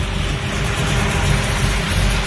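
A freshly built 600-horsepower car engine runs at a steady, loud rumble with deep low-end pulsing and no clear revving, heard alone without talk.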